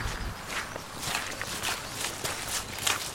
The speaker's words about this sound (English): Can we walk up just a little bit?